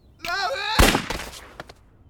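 A single gunshot rings out as a sharp, loud crack with a decaying tail, preceded by a short voiced cry.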